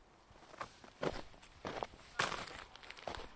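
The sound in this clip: Faint footsteps outdoors as someone sets off running toward a fence. A few soft, uneven impacts crunch lightly over a quiet background.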